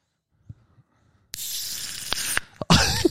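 A beer can from Australia cracked open: a sudden sharp pop gives way to a long, loud fizzing hiss of carbonation, cut by a few brief clicks and ending in a wetter burst of fizz.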